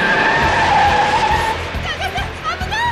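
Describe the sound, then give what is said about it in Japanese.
Race cars corner through a hairpin on a city street circuit: a long, sustained tire squeal over engine noise, then a fluttering, wavering engine whine as the cars power out of the bend. “トップは直角コーナーを抜けてセブンスアベニューへ。おっとタイムズスクエアヘアピンで再び風見が仕掛ける。”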